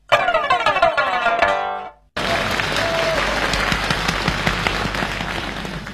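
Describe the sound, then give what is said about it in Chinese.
Audience applause at a Beijing crosstalk comedy show follows a harmonic musical passage that fades into a brief moment of silence. The clapping then starts abruptly and continues as a steady, dense patter. “谢谢朋友们的掌声。”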